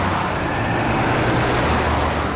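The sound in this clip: A car accelerates on the road, its engine and tyre noise forming a loud, steady, broad rumble with no voices over it.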